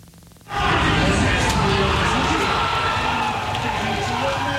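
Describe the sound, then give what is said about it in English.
A crowd erupts as Mexico scores the first goal of the 2026 World Cup. After a quiet opening, a sudden, loud, sustained roar of cheering holds steady to the end. “That's the sound of Mexico's World Cup soccer team scoring its first goal, and the first goal of the 2026 World Cup.”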